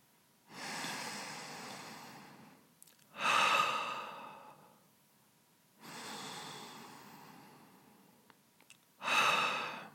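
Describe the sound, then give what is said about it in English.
Breathing in through the nose and out through the mouth: two full breath cycles, each a softer, airy inhale followed by a louder, rushing exhale. “Inhale in the nose and exhale through the mouth. Keep doing that for a while,”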